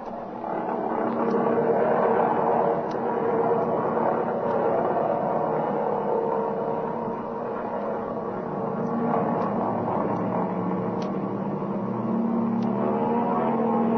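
A propeller airplane engine drones as the plane takes off from an airfield runway, a steady, full roar that holds for a long stretch with gentle swells in loudness and no voices.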